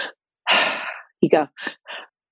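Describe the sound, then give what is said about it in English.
Audible breathing showing the physiological breath technique, meant as a double inhale and a long exhale: a long, breathy rush of air followed by a few short, sharp breath bursts, fairly loud and with no talk. “So there's the physiological breath, which Andrew Huberman has talked about, which is like”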